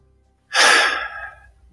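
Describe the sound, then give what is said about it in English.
One deep breath drawn in: after a moment of quiet, a sudden loud, airy inhalation that peaks at once and then tapers off over about a second. “takes a deep breath in”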